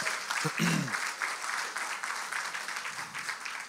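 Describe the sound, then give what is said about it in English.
A church audience claps during Sunday worship, a dense, steady patter of many hands lasting throughout, with a brief voice heard near the start. “Man, yeah, just give him a big hand clap today.”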